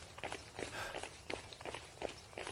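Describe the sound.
Running footsteps of someone fleeing near a mort house: a quick, uneven series of soft thuds and scuffs, faint overall, with no talking.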